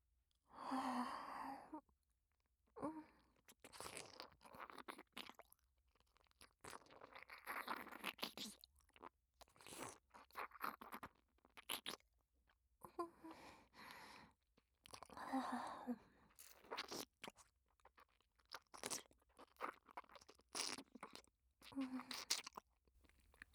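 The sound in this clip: Someone chews crunchy food, making soft, close crunches and mastication sounds in repeated bursts with short pauses between, all very quiet.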